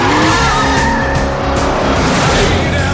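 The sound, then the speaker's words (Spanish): A race car engine roars hard as it accelerates during a race, loud and unbroken for the whole three seconds, with tire squeal mixed into the dense mechanical noise. “Carter acelera y toma la delantera”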